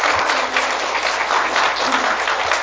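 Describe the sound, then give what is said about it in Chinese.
Warm, sustained applause from a church audience, dense and even clapping that holds steady for nearly three seconds without voices over it. “所以我们再次给他们一个热烈的掌声来感谢。 Let's welcome them again and thank them.”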